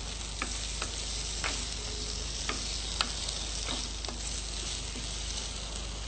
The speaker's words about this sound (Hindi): आलू डाल दीजिए। आलू डाल के हम इसको थोड़ा मिक्स कर लेंगे।